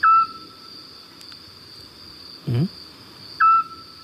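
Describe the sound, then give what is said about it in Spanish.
A scops owl calls at night, two short, clear whistled notes about three seconds apart, with a soft low knock between them over faint background hiss. “Este sigue un autillo. Qué bonito, ¿eh? Qué bonito canta, además, ¿no?”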